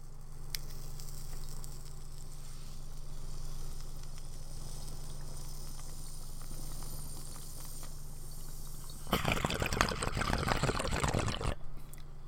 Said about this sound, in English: This man taking a bowl.